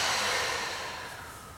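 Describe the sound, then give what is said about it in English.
A deep breath exhaled through the mouth during a guided relaxation exercise: one long, airy rush of breath that starts strong and slowly fades, with no talking. “So a deep breath in and out through the mouth.”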